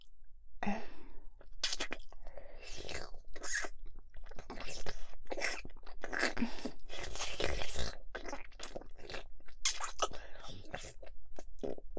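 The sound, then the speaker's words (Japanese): Deep kissing with tongues makes many soft, wet, smacking and slurping mouth sounds, irregular and close-sounding, at low volume throughout. “キスしちゃった。お口の中で舌を絡める、とっても濃厚なキス。”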